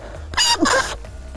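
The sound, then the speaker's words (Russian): A rooster's crow imitated by blowing on a leaf: a single short, shrill, reedy call of about half a second with a brief break in the middle, heard alone. “возьмешь листок, хоть что, и уже и кукарекаешь, и свистишь, что хочешь, делаешь”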